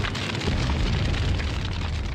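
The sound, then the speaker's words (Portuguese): A bomb explosion sound effect: a dense, loud roaring rumble with crackling noise that holds steady for about two seconds without any pause. “Olha a bomba, solta a bomba, Moab.”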